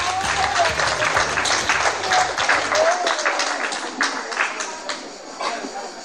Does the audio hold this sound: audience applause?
yes